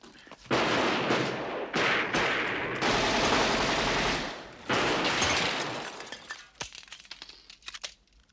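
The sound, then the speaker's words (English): Machine gun fire comes in long, loud sustained bursts separated by short gaps, then thins out into scattered sharp cracks toward the end. “Yeah, these guys are serious. I hate machine guns.”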